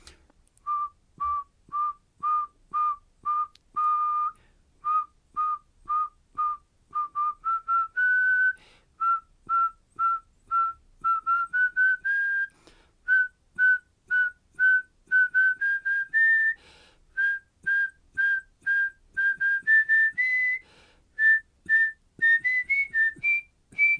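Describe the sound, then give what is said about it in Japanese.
A person whistles a melody for a health whistling exercise, using many short, evenly spaced notes with clear gaps between them. The pitch climbs gradually in small steps as the tune goes on, and there is no other sound. “ちょっと今、健康口笛体操していただけないですかね。”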